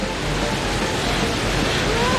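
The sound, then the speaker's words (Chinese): Water waves churned up by a wave-generating console surge in a steady, loud rushing wash that fills the whole two seconds without a break. “这是个可以制造波浪的控制台呀！嘿嘿，启动！”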